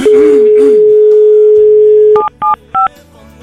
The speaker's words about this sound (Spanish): Vamos a marcar de nuevo. Ahí le estamos marcando.